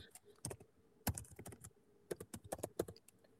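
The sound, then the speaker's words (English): Keys click on a computer keyboard as an email address is typed: many quick, irregular keystrokes in uneven bursts, crisp and fairly faint, with no talking. “Here, I'll type it in here for you.”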